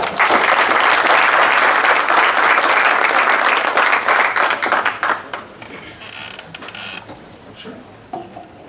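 An audience at a Knesset Christian Allies Caucus event applauds to welcome a member of Knesset. The clapping is loud and full at first, thins into scattered claps, then fades to a few faint knocks.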